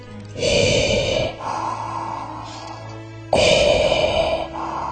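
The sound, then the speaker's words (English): Heavy, exaggerated breathing. Loud, rasping breaths come in long pulses, with two heavier surges separated by a quieter, lower stretch. “You just love hearing me breathe. Yes, heavy too.”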